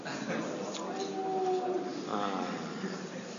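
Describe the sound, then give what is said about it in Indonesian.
A voice imitates a wolf howling, holding one sustained, wavering tone mid-clip amid ongoing talk. “serigala itu, ya, kalau melolong gimana, sama gitu juga,”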